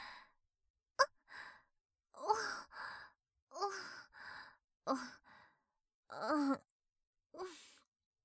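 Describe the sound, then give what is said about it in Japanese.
Heavy breathing from a person, many voiced sighs and groaning exhalations in uneven bursts separated by short silences. “あら、呼吸が荒くなってますわよ。”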